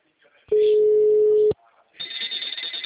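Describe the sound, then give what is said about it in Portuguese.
A telephone ringback tone sounds on an outgoing call: one steady, pure, humming tone lasting about a second, followed after a short gap by talking. “Tá chamando aí?”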